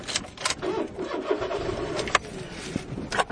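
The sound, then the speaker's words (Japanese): A car engine starts in a parking lot beside a main road, heard from inside the car, and settles into a steady, moderate rumble broken by a few sharp clicks and knocks. “車にエンジンをかけましたけどもね、これがどのくらいの音で入ってるのかな。”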